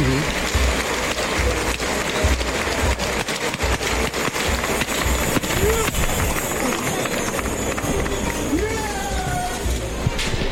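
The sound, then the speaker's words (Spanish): Bullring crowd at a bullfight applauding as the bull is dragged out after a good fight: dense, sustained clapping fills the whole stretch, with a brief voice rising over it. “Pues hay ovación en el arrastre el, toro, ha sido bueno.”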